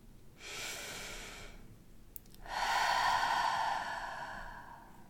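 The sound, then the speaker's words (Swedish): A deep breath taken during a guided relaxation exercise: a soft, airy inhale, then after a brief pause a longer, louder, breathy exhale that fades slowly. No one speaks. “Ta ett djupt andetag.”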